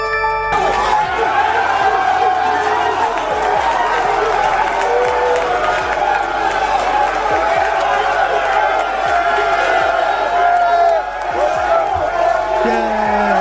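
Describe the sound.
Minnesota Vikings players cheer and holler in the locker room after beating the Green Bay Packers. A dense, loud, unbroken din of whooping and applause runs throughout, with scattered low thumps beneath it.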